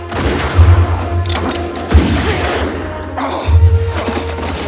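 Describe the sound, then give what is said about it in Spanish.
A pistol is fired during a close fight: a single sharp crack near the middle, set among heavy low thumps and rumbling bursts before and after it. “John logra sacar su pistola del cinto, engatilla y dispara.”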